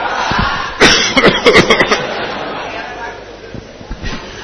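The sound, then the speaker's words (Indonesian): A cough during an Islamic religious study gathering: one sharp burst followed by several quicker, choppy bursts, with a murmur of voices from the audience around it. “Ngapusi ya batuknya ya.”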